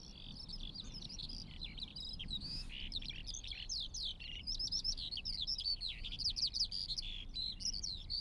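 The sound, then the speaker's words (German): Eurasian skylarks sing over an open airfield in a continuous, faint stream of rapid, high-pitched twittering chirps above a low background rumble. “Wenn du auf dem Tempelhofer Flugfeld bist, kannst du die Feldlerchen hören.”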